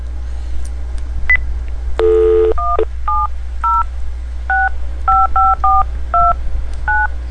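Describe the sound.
A telephone being dialed for a call: a brief buzzy tone, then a quick run of about ten touch-tone beeps at differing pitches, sounding clearly over a steady low hum.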